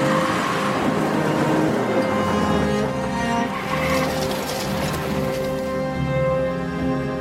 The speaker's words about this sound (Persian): عاطف سوار ماشین میشه و میره.